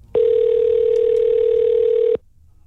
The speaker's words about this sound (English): Let's see if we can get Christine Fraze on the line.